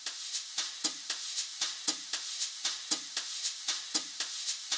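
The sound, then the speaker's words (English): A soft, mild drum pattern from a song's verse section: many light, evenly spaced hits with a crisp, brushy top and gentle low thumps keeping a steady, quiet groove with no other sound. “There are three levels of intensity in the drums during this section, during this song. So you could think of them as mild, medium, and hot. Let's start with mild.”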